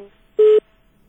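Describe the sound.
Telephone line cut off mid-call: a single short, steady mid-pitched beep, loud against faint low background noise before and after.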